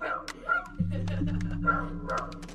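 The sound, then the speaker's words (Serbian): A dog barks in a neighbouring room behind a wall, giving a few short, sharp yipping barks spread across the moment over a steady low hum. “Kod njih pas laje.”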